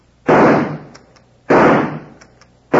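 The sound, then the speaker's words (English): Rifle shots fired at two men in a canoe on a lake: two loud, sharp cracks with long decaying tails, each followed by faint brief repeats, and a third shot starting at the very end. “Give me that rifle. Here it is. You can't miss it that distance, right?”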